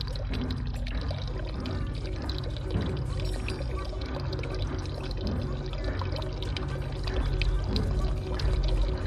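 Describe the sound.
Water trickles steadily, like a running urinal, as a continuous splashing wash at a moderate level that holds unchanged throughout.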